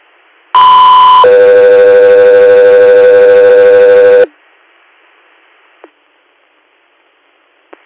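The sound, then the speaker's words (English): Two-tone radio dispatch alert for an ambulance call: a short steady tone, then a longer, lower steady tone held for about three seconds. Both are loud and clean. Two faint clicks follow in near silence. “stand by for tones”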